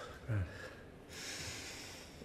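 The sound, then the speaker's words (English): Deep breathing by a person: a short, snorting intake of air followed by a long, steady, breathy exhale, heard alone without talk. “Back to normal. Thank God. 3 big deep breaths. That's all you need.”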